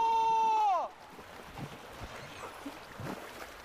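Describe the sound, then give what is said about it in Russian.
An outboard motor's steady whine drops sharply in pitch and cuts off as the motor falls into the water, followed by a rough wash of splashing and water noise. “Он толкает мотор ногой, и тот падает в воду.”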